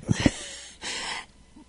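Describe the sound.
Close-miked breathing: a couple of short, puffy breaths followed by a longer, airy exhale, faint and intimate, with no talk.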